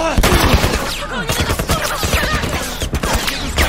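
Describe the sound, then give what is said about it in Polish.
Video game gunfire: loud, rapid automatic weapon fire that rattles densely and almost continuously throughout, with overlapping sharp cracks. “Wow. Ty, on do mnie strzela.”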